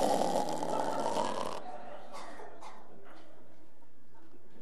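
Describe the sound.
A voice imitates snoring sleep breathing with one rough, rasping snore lasting about a second and a half. Faint, quiet breathing follows.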